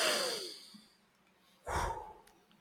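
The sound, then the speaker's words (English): Deep cleansing breaths through the nose come as a soft airy rush that fades, then a second sharper breathy swell. Both are quiet and heard alone, with no talk. “let everyone take a deep breath, a nice deep cleansing breath,”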